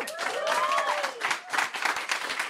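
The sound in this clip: Audience applause greeting a comedian's entrance at a live comedy show, with thick, rapid clapping and a few whooping voices at the start, steady and fairly loud throughout.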